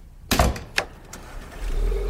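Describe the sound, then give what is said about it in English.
Doors thunk on a Bentley Continental Flying Spur 6.0 car: two solid, heavy shuts close together, then a lighter click, all fairly loud against a quiet background. “Wow, nice car. Oh my god, that is a Bentley Continental Flying Spur 6.0!”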